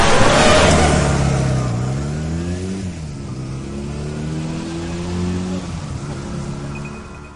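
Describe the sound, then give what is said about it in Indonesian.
A motorcycle engine revs as the bike rides away. Its pitch climbs, drops at a gear change, then climbs and drops again. The loud, steady drone gradually eases. “Dan motor kami pun semakin menjauh dari ruang himpunan itu.”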